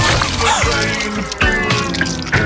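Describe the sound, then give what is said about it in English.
A spilled piña colada drink splashes and drips in quick wet bursts, heard over steady music. “spilled your piña colada? Quick, the quicker picker-upper. Bounty picks up spills and messes quicker.”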